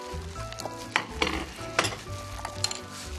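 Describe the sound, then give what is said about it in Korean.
Minced garlic sizzles in a frying pan while Korean pancakes are being cooked. A steady crackling hiss runs throughout, with a few sharper scraping or stirring clicks on top. “지금 이 다진 마늘은 언제 넣어요? 지금 이제 넣어주세요. 자, 제가 넣을 겁니다.”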